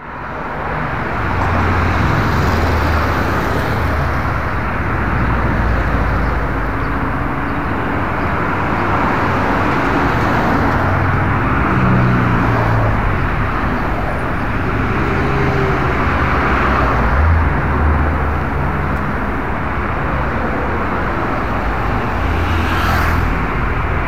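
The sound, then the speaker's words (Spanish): Dense vehicle traffic roars along a big city avenue, Avenida Río Churubusco in Mexico City. The low rumble of engines and tires stays loud and continuous throughout, with passing cars swelling and fading within the steady wash. “Esto es el rumor de la selva de concreto. Tránsito vehicular en Avenida Río Churubusco, Distrito Federal.”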